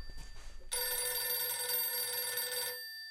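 A telephone bell rings after a wrong-number call, sounding one loud, continuous, bright metallic ring of about two seconds that follows a quieter lead-in and stops abruptly.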